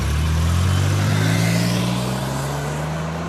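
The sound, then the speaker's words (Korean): A limousine driving off: a steady low engine drone with a faint rising whine and continuous road hiss throughout, no voices. “오늘은 제가 연예인 리무진을 준비했습니다. 빰빰빰 빠밤빰 빠바밤 김춘추가 공주 이모들을 리무진에 태우고 경주 남산으로 출발하자.”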